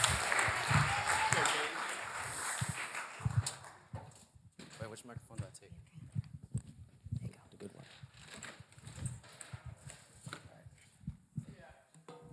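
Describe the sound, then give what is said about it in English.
Audience applause welcoming a speaker to the stage: a burst of clapping that fades out over roughly four seconds, followed by a single voice speaking alone. “Let's give him a hand as he shares.”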